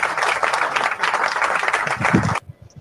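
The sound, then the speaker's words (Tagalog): Applause from an audience greeting a guest of honour, a Cadet Girl Scout, at a ceremony: dense, even clapping for over two seconds that then stops abruptly, leaving faint low sounds. “Pinapakilala po namin sa inyong lahat ang ating panauhing pandangal, si Cadet Girl Scout Joanna Mariel Santiago. Palakpakan natin yan.”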